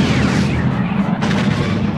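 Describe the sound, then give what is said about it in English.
A photon torpedo explosion shatters an asteroid: a sustained, heavy booming rumble with a sharper burst breaking through partway along. “Use photon torpedoes. The torpedo shot away and shattered the asteroid.”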